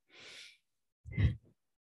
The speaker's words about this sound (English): Breath in here.